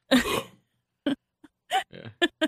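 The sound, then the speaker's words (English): A person coughing and clearing their throat in a few harsh, rasping bursts: one longer rattling burst first, then several short separate hacks with gaps between them and no talk. “I was trying to time it right for the cough. I need more cough.”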